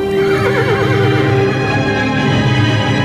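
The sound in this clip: A horse whinnies loudly, its shrill neigh trembling in pitch before fading over a dense low rumble, with no voices.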